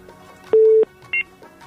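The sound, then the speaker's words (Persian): Two telephone keypad tones sound as a call connects on a radio call-in show: a longer steady beep, then a short, higher one, over a faint background hum. “بان که یک دوست دیگه تماس بگیره، ببینیم کدام عزیز ما هست. بله سلام، تماستان وصل شده، بفرمایید.”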